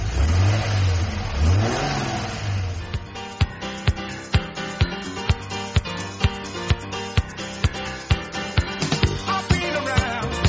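A car engine starts and revs, its pitch sweeping up and down over the first couple of seconds, then gives way to a steady, regular rhythmic beat that continues to the end.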